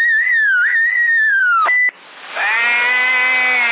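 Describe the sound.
A man whistling a high, wavering tone that breaks off briefly, followed by a steadier, buzzier sustained tone.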